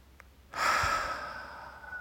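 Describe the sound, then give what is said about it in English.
A single long, deep breath taken during a guided relaxation exercise, a breathy rush that starts suddenly and slowly fades, heard alone. “Every time you inhale, have this intention to gather up all of the tension in your body, every single cell.”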